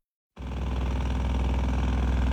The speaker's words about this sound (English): Jackhammers pound away and tractors back up as a construction crew paves the way for a new building near the VA clinic.